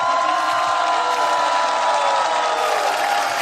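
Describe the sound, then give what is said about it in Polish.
Crowd cheering at Stadion Śląski during a football match, about a thousand voices answering a call to greet Poland in a steady, dense roar that holds level throughout. “Ja teraz znowu poproszę publiczność, żeby pozdrowiła cały kraj. Pozdrówcie Polskę!”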